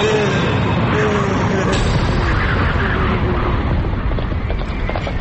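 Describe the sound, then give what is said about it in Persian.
Hoofbeats of a horse carrying an approaching rider form a dense, rumbling, steady bed of thuds with no clearly separated strikes, holding loud throughout. “یا خدا این اسب سوار کیه داره نزدیک میشه؟”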